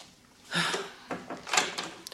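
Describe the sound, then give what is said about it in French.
Knocking on a door: a few hard raps at uneven intervals, moderately loud against quiet pauses. “Qui frappe ainsi? C'est Barbe Bleue? Non, c'est de l'autre côté.”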